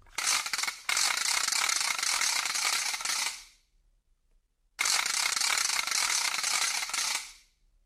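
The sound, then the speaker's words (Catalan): Rattling clatter of a hand-spun matraca, a ratchet made of canes, in dense whirring bursts: a short one, then two sustained whirls of about three seconds each separated by silence, with no voices. “El diable li va donar una matraca feta amb canyes que quan la feia girar amb la mà sonava...”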